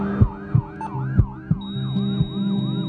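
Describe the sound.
An ambulance siren wails in fast, repeating rise-and-fall sweeps. A few low thumps sound beneath it, and a steady high tone joins partway through. No one speaks.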